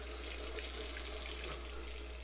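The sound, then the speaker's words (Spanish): Water runs steadily from a tap while dishes are being washed, a continuous, even hiss with no pauses and no voices. “Si no cerrás la llave mientras lavas los platos o te cepillas los dientes, estás desperdiciando el agua”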